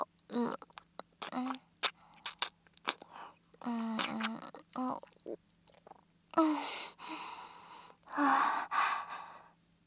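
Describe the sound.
Gulps and breathy gasps of someone drinking rice sake, a series of short throaty swallowing sounds followed by longer satisfied sighing exhales.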